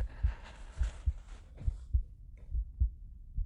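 A heartbeat thumps in a steady lub-dub rhythm, soft low double pulses repeating several times with little else around them.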